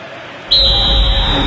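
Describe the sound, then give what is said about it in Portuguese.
A referee's whistle starts the second half of a World Cup 2026 football match between England and Norway: one sudden, long, shrill, steady blast over a low crowd murmur. “Tá tudo pronto, apita o árbitro.”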